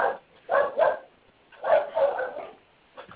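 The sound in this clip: A dog barks in a few short, sharp bursts grouped in pairs and clusters, heard thin and narrow over a telephone line, with quiet gaps between.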